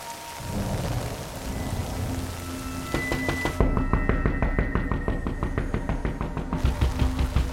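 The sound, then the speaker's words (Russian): Heavy rain pours down in a dense, loud, steady hiss, with many sharp drops pattering and splashing and a low rumbling underneath throughout. “Ливень.”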